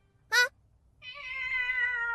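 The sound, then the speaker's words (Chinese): A cat meows twice: first a short, sharp cry, then after a brief gap a long, drawn-out, tonal meow that holds steady to the end. No voices accompany it. “猫咪，猫咪快来。”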